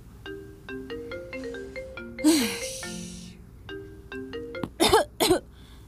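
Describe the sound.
A melodic phone ringtone signals an incoming call, playing its pattern of bright notes twice; a breathy noise bursts in between, and short vocal sounds follow near the end.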